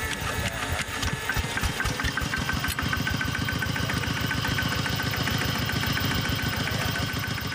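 A rural farm truck's engine idles with a fast, even chugging knock that stays loud and steady throughout, with no voices.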